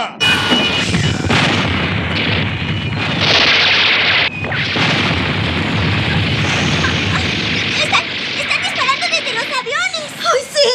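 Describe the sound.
Gunfire and booming blasts from a sea battle, with a ship strafed from the air, forming a dense, continuous roar of crashes and explosions with voices rising through near the end.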